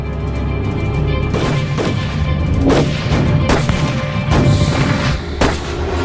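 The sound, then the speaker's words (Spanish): Cannon fire from Anglo-French ships bombarding shore batteries in a naval battle: a rapid series of heavy, booming blasts over a continuous low rumble, each blast sharp and loud. “Hacia las diez y media de la mañana, el poder de los cañones anglo-franceses comenzó a destruir las baterías patriotas.”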